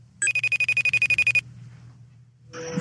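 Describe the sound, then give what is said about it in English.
A telephone rings after a number is dialled, one rapid, bright, pulsing trill lasting just over a second, then quiet. “All right, let's dial his number.”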